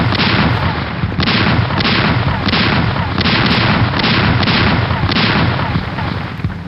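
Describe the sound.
Cannons firing in a sea battle between ships: a loud, dense barrage of many overlapping booms in quick succession over a continuous heavy rumble, with no pause throughout.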